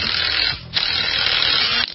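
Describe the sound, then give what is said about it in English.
An impact gun runs on a job in a garage with a dense, rattling mechanical buzz. It dips briefly partway through, then resumes at full strength before cutting off. “Had to trade the wrench up for an impact gun because I got to get the open sign up.”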